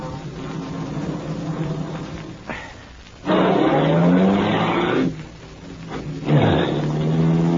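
A car turning around at a dead end: a low engine rumble gives way to two loud bursts of revving with a rising whine, separated by a brief quieter stretch.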